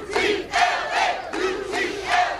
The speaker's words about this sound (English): That's the sound of protesters outside Bravo Medical Magnet High School.